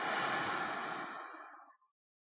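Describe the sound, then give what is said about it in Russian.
A soft, slow breath during a guided heart-breathing meditation: one steady, airy hiss that thins out and fades to silence over about two seconds. “Давайте сделаем глубокий вдох сердцем. Выдох.”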